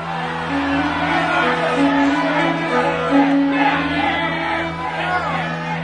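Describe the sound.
A gathering crowd makes a steady murmur of many voices with scattered raised calls, over a low droning tone.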